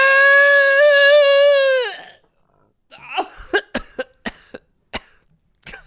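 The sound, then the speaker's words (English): A person coughs. A sustained, strained vocal tone comes first, then, after a short pause, a rapid series of sharp, harsh coughs of varying loudness. “That's a new one, the coughing intro.”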